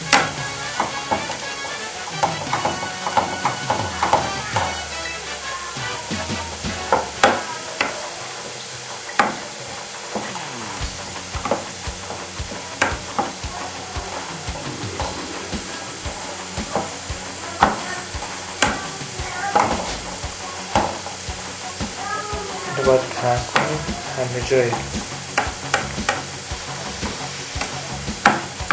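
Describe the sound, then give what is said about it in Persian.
Apple slices crackle and sizzle in a frying pan as they are stirred. A steady frying hiss runs under many sharp pops and scraping clicks from the stirring, continuing throughout. “یعنی الان یه مقداری پفکی شده، خر و خر سیبا صدا میده.”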